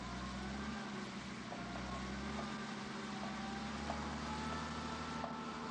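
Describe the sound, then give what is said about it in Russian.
Low, steady engine rumble of a tarp-covered truck slowly driving out of the Ipatiev house courtyard on a foggy night. The hum holds an even, droning level with no clear changes. “Со двора медленно выезжает грузовик с тентом.”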